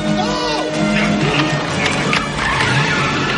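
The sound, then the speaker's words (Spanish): Tires skid and engines roar as a van chases a DeLorean car near a parking lot in a 1985 science-fiction film, a continuous, loud wash of motor noise and screeching rubber. “La furgoneta persigue al coche.”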